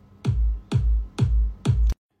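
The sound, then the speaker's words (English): Four deep kick drum hits added to a club remix, evenly spaced about half a second apart, each a punchy thump with a booming low tail, played alone. “Get a kick.”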